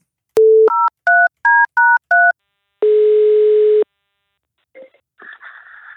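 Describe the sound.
A telephone is dialed for a call: one short tone, then five quick keypad beeps. A long, steady tone of about one second follows, then a few faint, scratchy noises.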